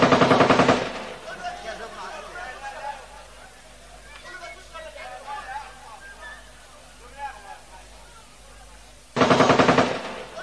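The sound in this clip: Bursts of celebratory automatic gunfire at a gathering of arriving guests in Souq al-Kanda: a loud, rapid volley opens, murmuring voices fill the quieter middle, and a second dense burst of shots closes.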